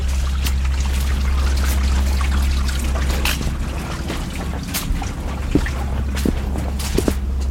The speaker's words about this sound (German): Ah, genau, jetzt laufen wir so ein Bächli noch.